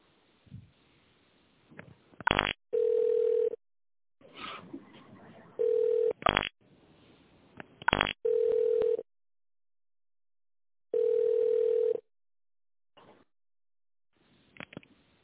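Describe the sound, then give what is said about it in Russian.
Telephone tones play while a call is being transferred: a steady mid-pitched beep sounds four times with pauses between, separated by sharp clicks and faint line hiss. “Так, сейчас я вас переключу. Так, переключаю.”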